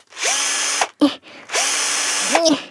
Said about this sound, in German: So, guck mal, warte mal, wie ich stelle. Ich schraube mal kurz die Sessel wieder ab.